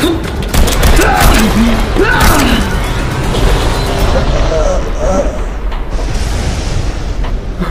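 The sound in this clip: Rapid gunshots ring out in a loud, dense burst, mixed with raised voices and clattering mechanical noise that carry on throughout.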